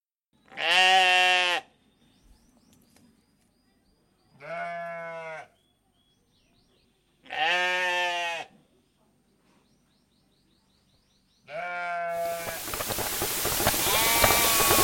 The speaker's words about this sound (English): So let's return to the farm sounds previously in progress.